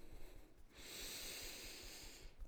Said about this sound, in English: And then onto the ribs, taking a deep breath in